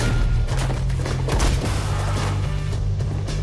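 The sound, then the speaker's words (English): Rapid gunfire sounds in a hallway of a gang's lair during a firefight with clan gunmen. Shots burst through a dense, continuous wash of loud noise over a low rumble. “Dredd blasts a clan member in a room off the main hallway, then another. They advance further into the lair. Anderson clears another room, then they advance systematically, dispatching clan gunmen who try to take them on.”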